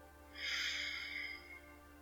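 One slow, deep breath is drawn in through the nose during a guided breathing exercise, a soft, airy hiss that swells and fades over about a second, with no talk.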